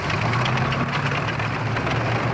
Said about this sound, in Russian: Тяжелый танки «Тигр» переезжает в холм.